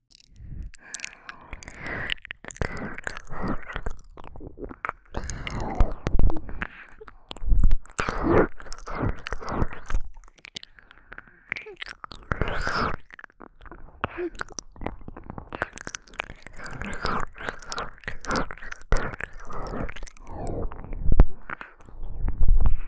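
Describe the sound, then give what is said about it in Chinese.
Wet licking and mouth sounds repeat as many soft smacks, slurps and squishes in an uneven, continuous rhythm, moderately loud and close throughout. “小心点，我要舔上来了。”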